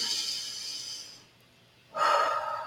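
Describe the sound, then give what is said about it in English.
A deep breath drawn through the nose, soft and breathy: one long airy breath, a brief quiet pause, then a second fuller breath that rises in loudness, with no talking. “take your first deep breath of the day.”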